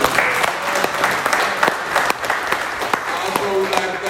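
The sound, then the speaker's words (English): An audience applauds to welcome a guest at a morning breakfast gathering, with steady, dense clapping lasting about four seconds and voices talking over it. “Let's give Fran a hand for showing up.”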